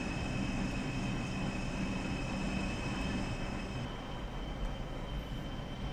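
Subway train running in a train simulator video game: a constant dense rumble with a thin high whine held on top, steady in level throughout with no talking.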